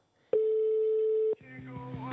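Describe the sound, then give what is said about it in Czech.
A single long, steady telephone ringback tone sounds while a call is being placed, holding one even pitch for about a second before it cuts off and talk follows. “Ano, už nám to zvoní, známá písnička. Nebere nám telefon, bohužel.”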